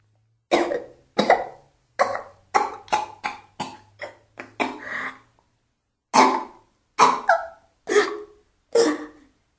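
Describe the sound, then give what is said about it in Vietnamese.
Dry, hacking coughs from a woman clutching her throat: a rapid run of many short, harsh coughs, a brief pause, then four slower, heavier coughs, all loud and without talk. “Cô ôm lấy cổ mình, ho khan đứng lên.”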